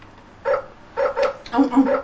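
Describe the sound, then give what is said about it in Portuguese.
A person imitates a dog barking. Short voiced woofs come first singly, then in quicker clusters of two and three, fairly loud. “Como é que faz o cão?”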